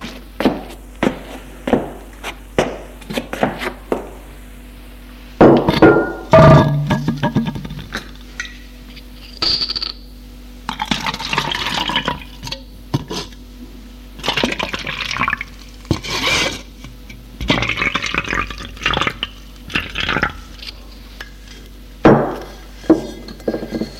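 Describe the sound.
Drinks are poured from a bottle into three glasses set on a low table. Glass clinks and knocks, with bursts of trickling liquid, come at irregular moments throughout.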